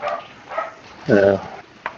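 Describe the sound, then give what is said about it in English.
A dog barks outside, a noisy dog: one short, tonal bark stands out in the middle, with faint voice-like sounds and soft background noise around it. “You may hear a dog barking in the background. He's outside. He's a little noisy at times.”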